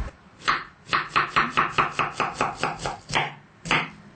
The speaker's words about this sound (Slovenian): lahko naredimo tudi tako, da najprej sesekljamo čebulo.